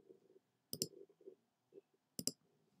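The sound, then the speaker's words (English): Keys on a computer keyboard click faintly in two brief, sharp double clicks about a second and a half apart, with soft low murmuring noise around them. “Oh, yeah, I can just type that.”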